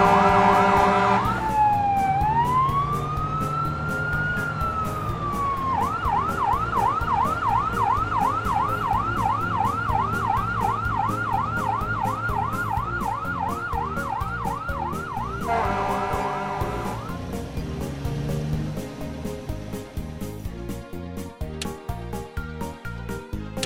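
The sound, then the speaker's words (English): An emergency vehicle siren sweeps slowly up and down in a wail, then switches to a long run of rapid, regular yelp cycles before slowing again. It stays loud throughout over a low traffic rumble. “Pull over and let emergency vehicles pass you.”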